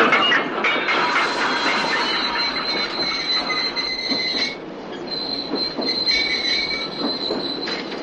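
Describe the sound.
Train braking with its wheels squealing on the rails: a continuous rumbling roll under a shrill, high screech that fades out and returns, with no voices.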